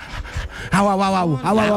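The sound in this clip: A person imitates a big dog panting, making a few quick breathy puffs, then a long voiced whine-like tone that dips in pitch and returns in a second, shorter call.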